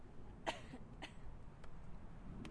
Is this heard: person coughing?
yes